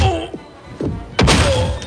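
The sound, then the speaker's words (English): Three heavy punch sound effects, dull thudding whacks spaced apart, the last one loudest and fullest. “Kelly, who are you punching in the face? I'm punching preseason football.”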